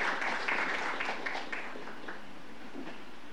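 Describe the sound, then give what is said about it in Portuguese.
Applause for an outgoing council board leaving office: a faint, continuous patter of many hands clapping together, holding steady throughout with no voices. “Nosso aplauso à mesa diretora que hoje deixa seus cargos.”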